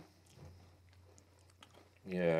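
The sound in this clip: Crunchy chewing of Pringles crisps eaten with whipped cream, faint and irregular, before a voice begins talking near the end.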